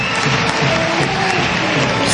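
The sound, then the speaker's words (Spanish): Football fans applauding players being substituted during a match, a dense, steady wash of clapping and crowd noise that holds at an even level throughout. “La gente aplaude enormemente el trabajo de Josiel y Sergio Chinchilla, que han jugado muy bien en este partido.”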